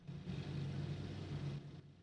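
Military vehicles driving along a dusty desert give a faint, continuous low engine rumble that stays steady throughout, with no voices.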